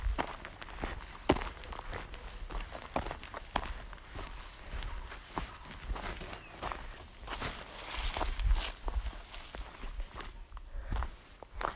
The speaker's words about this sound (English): Well, I am going through the last bit of this walk with you.